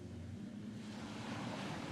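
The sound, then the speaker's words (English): Water lapping against a coastal shore. A steady, soft wash of surf runs over a low rumble of wind and stays continuous and even, with no voices. “And you hear the water lapping against the shore, mixed with the hammers of the ships.”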